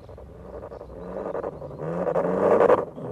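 A car drives off and accelerates, its engine swelling steadily louder with rising pitch to a peak before dropping away abruptly at the end.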